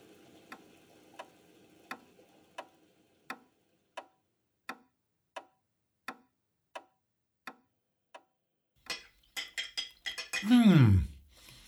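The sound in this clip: Cutlery and plates clink and clatter in a brief burst as a table is set, after many steady, evenly spaced ticks like a clock.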